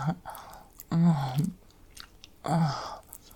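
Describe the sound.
Wet, slobbery licking and chewing of food comes in a few smacking bursts separated by quieter moments, with sticky mouth sounds throughout.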